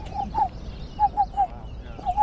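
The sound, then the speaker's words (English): A person imitating a black-billed cuckoo: soft, hollow, mid-pitched coos in short clusters of two or three, spaced apart over a low, steady background rumble. “That was a blackbill cuckoo? Blackbill cuckoo imitation?”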